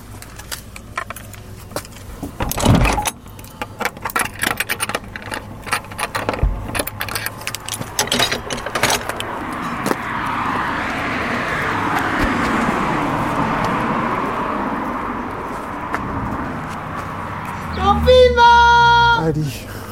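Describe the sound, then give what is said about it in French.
A car starts up on a city boulevard in the evening. Keys jangle and clatter at first, then a steady engine rumble holds, with a brief burst of harmonic tones near the end. “boulevard Jean Lacoste, il est 19h36 et une voiture démarre.”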